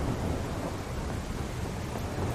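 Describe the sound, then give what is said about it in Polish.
A thunderstorm: a dense, loud roar of heavy rain and rumbling thunder that stays steady and continuous throughout, with no voices. “Ta burza chyba szybko nie minie.”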